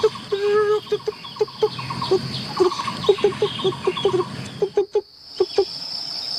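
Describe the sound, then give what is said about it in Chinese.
A woodpecker calls in a long series of loud, short, ringing notes, many in quick succession with brief pauses, over a steady high insect buzz. “这个是黑维尼啄木鸟的叫声，多响亮！”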